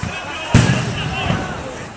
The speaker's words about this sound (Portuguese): A polícia não para de jogar bomba! Idosos passando mal.